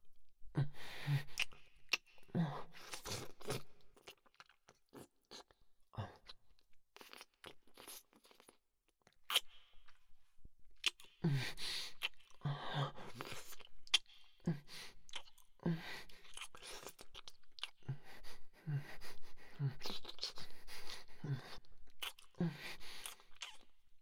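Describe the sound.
Wet kissing sounds in an intimate roleplay: many soft lip smacks and moist clicks in an irregular rhythm, quiet throughout, with a few brief pauses.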